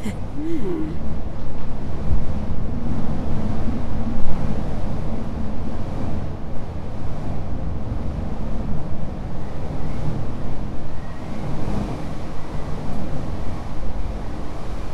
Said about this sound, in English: kind of the sound of the wind when you're in a really intensely windy place and it's just like blowing at your face.